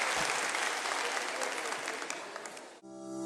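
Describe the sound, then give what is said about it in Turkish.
Audience applause for musicians: loud, steady clapping for nearly three seconds that cuts abruptly to sustained musical tones. “Bütün alkışlarınız değerli müzisyen dostlarıma.”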